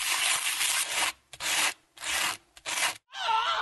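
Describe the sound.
Sandpaper rubs in a few rough, rasping back-and-forth strokes separated by short gaps, each stroke a bright, hissing scrape.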